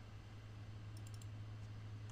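Soft clicks of typing on a computer keyboard, a quick run of a few keystrokes followed by a couple of sparser taps, faint over a steady low hum.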